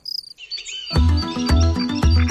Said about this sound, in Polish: To są świerszcze. To akurat teraz taki sezon, ten okres właśnie taki koniec lipca, sierpień, ciepłe te dni